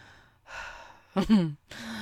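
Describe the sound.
A runner breathes out while cooling down after a run. A soft breathy exhale is followed by a louder, voiced groaning sigh, then another airy breath, with no words spoken.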